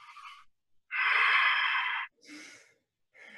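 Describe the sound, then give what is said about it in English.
Sharp, panicked breaths from a person acting out a fight-or-flight reaction, as if suddenly sitting up while playing dead. A few breathy bursts, the middle one long and loud, the others short, with brief silences between. “suddenly you sit up and you start taking breaths like this.”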